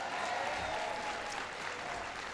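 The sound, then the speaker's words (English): Audience applause at a speech, greeting an introduction: a dense, steady wash of many hands clapping, sustained at an even loudness through the whole stretch with no voices standing out. “Give Duncan a big round of applause for the great introduction.”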